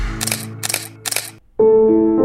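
A camera shutter clicks three times in an even rhythm, followed by a steady, sustained tone.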